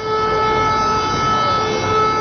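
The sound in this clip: A civil defense all-clear siren sounds across Serbia as a steady, unwavering pitched tone with layered harmonics. It stays loud and constant for the whole clip.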